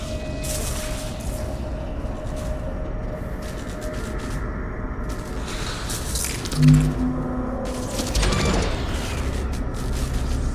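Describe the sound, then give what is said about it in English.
A bulkhead aboard a starship is welded, giving a crackling, hissing, mechanical texture over a steady tonal hum. There is one brief, louder thump midway, and bursts of crackle come and go. “A woman in a Starfleet uniform welds a bulkhead.”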